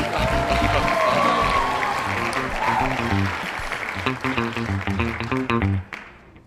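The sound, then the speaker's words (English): Applause and crowd noise greet a funk duo, two brothers, as they are welcomed onto a stage. It is loud and dense at first, with band music playing underneath, then thins and drops off sharply near the end. “All right, put your hands together and welcome these brothers out.”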